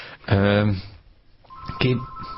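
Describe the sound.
An incoming phone call on a studio line sounds as a steady, single-pitched electronic tone that follows a brief burst of voice and holds to the end.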